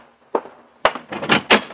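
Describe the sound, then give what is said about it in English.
A newspaper thumping against an apartment door at dawn: a single muffled knock followed by a cluster of three or four sharper, louder thuds and rattles, with no talk. “the jarring thump of the paper grazing my door told me a new dawn was with us”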